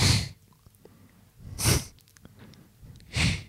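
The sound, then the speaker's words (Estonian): A person imitates a skier clearing one nostril with a sharp nasal snort, repeated three times at roughly even gaps, each a brief, breathy, forceful blast of air with quiet in between. “Jah, ei sa mõtled seda, kuidas suusatajad nuuskavad. No paned ühe nina poole kinni.”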